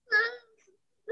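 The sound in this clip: A fussy baby cries in a short whimpering wail that trails off, then a second cry starts right at the end.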